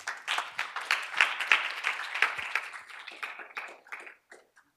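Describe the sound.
An audience applauds to welcome a speaker to the stage with moderate, brisk clapping that gradually thins out, leaving a few scattered claps before it stops.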